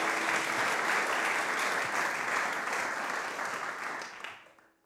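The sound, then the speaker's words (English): An audience applauds to welcome back a teacher and author. The clapping is dense and steady, then fades out over the final second. “Will you please give her a warm welcome back, Sharon Salzberg?”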